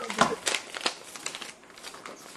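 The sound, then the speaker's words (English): A sheet of paper crinkled and rustled as it is readied for a tabletop game, several crackly handling bursts, faint, growing softer toward the end. “All right. Let me get my paper ready.”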